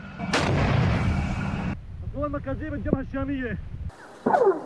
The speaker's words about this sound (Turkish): Evet, keskin nişancı. Aha. Silah ateş ediyorlar değil mi?